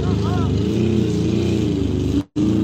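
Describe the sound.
Engine of a delivery driver's vehicle driving away, a steady low drone that runs under continuous talk and cuts out briefly near the end.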